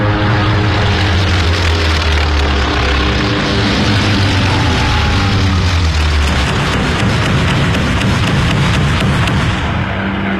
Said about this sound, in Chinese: 首先起飞的是第8鱼雷轰炸机中队。